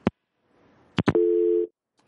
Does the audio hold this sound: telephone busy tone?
yes